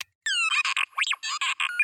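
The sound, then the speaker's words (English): An R2-D2 astromech droid sound from a Star Wars littleBits kit, set off when a power bit and a control hub bit snap together: after a short silence come electronic beeps, warbling whistles and a quick swooping sweep, a fast string of short tonal chirps. “And that's the sound of the astromech droid from R2, from Star Wars.”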